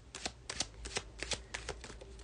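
Tarot cards are shuffled to draw a single card for the week, giving a run of quick, crisp riffling bursts in an uneven rhythm with no talk over them.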